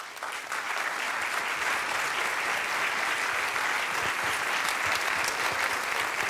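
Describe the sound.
Audience applause welcoming a guest speaker at a monthly August lecture event with historians, steady and sustained clapping from start to finish with no voices standing out.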